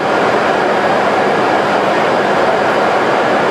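A train at Kanazawa railway station in Japan, part of the high-speed rail network, produces a loud, steady rushing rumble that holds evenly throughout with no pauses and no voices.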